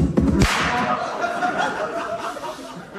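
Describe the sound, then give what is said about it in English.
A gun goes off as a man faces a bull: a sharp, loud bang at the start, then a sustained noisy wash that slowly fades away. “Yep, just the gun going off”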